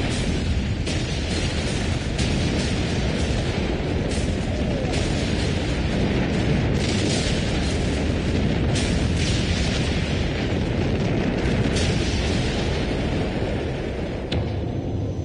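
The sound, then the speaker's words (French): Continuous World War I artillery fire through the night at Verdun in April 1916, during a German attack along both banks of the Meuse, a dense unbroken roar with many sharp bursts scattered through it. “Les combats d'artillerie durent toute la nuit.”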